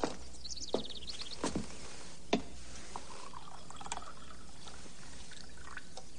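Coffee is poured into a cup, a faint trickling stream with a few sharp clicks scattered through it over a low steady hum.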